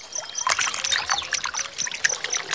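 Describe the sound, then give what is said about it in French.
Water trickles from a fountain in a soft, continuous patter of small splashes and drips, fairly quiet and steady throughout. “Je savais bien que tu ne serais pas loin des fontaines d'eau.”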